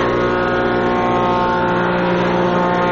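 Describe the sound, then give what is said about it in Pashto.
Woodworking machines shaping wood in a carpentry workshop, making a loud, steady motor drone with a strong hum. It runs without a break for the whole three seconds, and no voices are heard over it. “ځکه د ترکانی یا نجاری په دغه کارخونه کې نعمت الله سره نور للسو زیات کسان کار کوي. څوک په ماشینونو لرګي رکوي”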